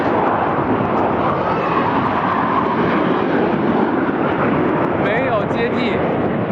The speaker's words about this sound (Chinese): 这次出现在我们上空的这个三架歼15组成编队